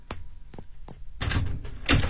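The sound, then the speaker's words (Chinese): A door being opened: three short, dull thuds, then a longer, louder stretch of rattling, shuffling noise with a sharp thump near the end. “开门。”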